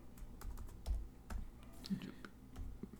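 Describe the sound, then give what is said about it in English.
Typing on a computer keyboard: an irregular run of soft, quick key clicks over a low, steady background hum, quiet throughout. “You typed in MA and it autofilled to maps”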